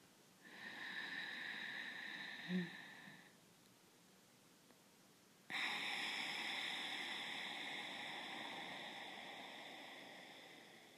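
A slow breath drawn through a slightly constricted throat: a quiet, hissing inhale of about three seconds, a pause, then a longer hissing exhale that gradually fades.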